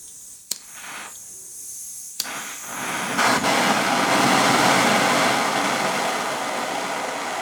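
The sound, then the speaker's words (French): Gas hissing out of a torch being readied to apply a silver primer to metal cones; two sharp clicks come first, then the hiss swells louder and holds as a steady, broad rush with no talking. “Tu vois, là, le gaz sort.”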